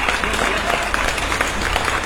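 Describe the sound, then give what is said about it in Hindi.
Applause from an audience, a dense, steady clatter of many hands clapping at even loudness throughout the two seconds. “ये जोरदार तालियां आपके लिए”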